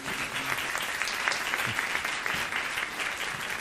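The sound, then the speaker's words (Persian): An audience at a group meeting claps in honour of club members. The applause is steady and dense and holds at an even level from start to finish. “به افتخارشون دست بزنیم”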